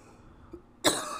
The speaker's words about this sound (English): I just inhaled a piece of wheat. Uh-oh.